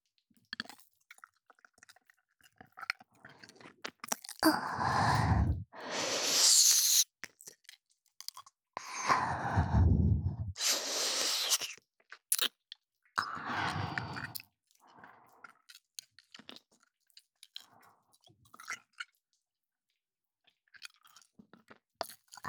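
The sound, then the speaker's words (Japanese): Close-up ear-licking ASMR: wet, smacking mouth noises in a few longer bursts separated by quieter crackly stretches, with no talk. “こっちの耳も舐めてきれいにしてもらいたいのか。”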